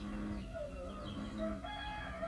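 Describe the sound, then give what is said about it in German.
Rooster crowing in the morning, a few drawn-out calls with clear tonal bands rising above a constant, noisy background hum. “begleitet vom Konzert der Ochsenfrösche, der Hähne und Vögel.”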